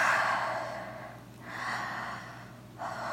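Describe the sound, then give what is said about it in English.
Deep breaths drawn in and let out slowly during a massage, soft airy rushes of breath in a few long swells with brief pauses between, fairly faint and with no talking. “Take a deep breath.”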